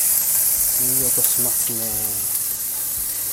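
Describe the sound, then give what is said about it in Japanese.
Bacon frying in a pan gives a steady, bright sizzle that runs through the whole moment while a person talks over it. “はい、ちょっとベーコンを炒めますね。ちょっと、いい音しますね。”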